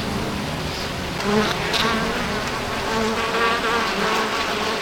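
Honeybees buzzing around their queen, a dense and continuous droning hum of many wings that swells slightly at moments.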